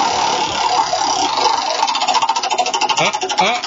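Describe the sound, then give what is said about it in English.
A game-show prize wheel spinning: a dense clattering rattle that settles into a steady run of distinct ticks in the second half, loud and alone with no talk. “Go ahead and spin our wheel. Spin. All right, we'll just spin it for you.”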